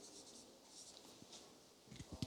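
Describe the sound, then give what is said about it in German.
Marker strokes writing a word in Arabic on a board, soft, faint scratchy squeaks that grow a little louder and more clustered near the end. “I will write the Arabic one. Ich schreibe noch das Arabische.”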